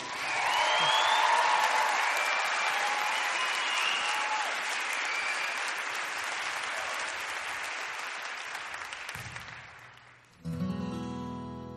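A crowd gives sustained applause to welcome a guest onto the stage at a concert, a loud and steady wash of clapping that fades near the end as music begins.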